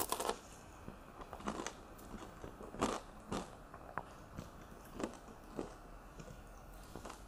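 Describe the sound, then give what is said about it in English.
Cheese and banana being eaten produce a run of soft, crisp bites and chewing noises. The sounds come as many brief, faint bursts spaced irregularly across quiet background, with no talking. “Cheese, banana, and homemade bread. Hell yeah. Let's take the cheese and banana down first.”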